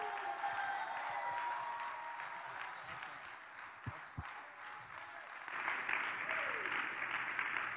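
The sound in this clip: A church audience stands and applauds to welcome a guest speaker, with dense, steady clapping that holds throughout and swells slightly near the end.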